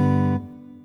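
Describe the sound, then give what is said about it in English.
A guitar patch on a keyboard sounds one chord without the sustain pedal. The tone rings steadily, then cuts off abruptly when the keys are released, leaving almost no decay. “This makes it a lot more realistic because if I don't use the sustain, the guitar sound sounds like this.”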